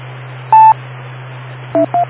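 Telephone keypad dialing tones: one longer beep, then after a pause two short beeps in quick succession, all heard over a steady low electrical hum.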